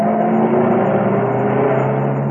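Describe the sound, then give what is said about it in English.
A large saloon car drives along a dusty open road with a loud, steady, even engine drone and a smooth low hum that holds throughout, without voices. “A short way away, a large saloon car was stirring the dust from the open road.”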